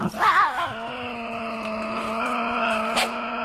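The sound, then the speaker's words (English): Tasmanian devil growling, a sustained tonal, whining growl whose pitch wavers at the start and then holds steady for a few seconds, fairly faint with no talk. “that is the sound of the Tassie Devil.”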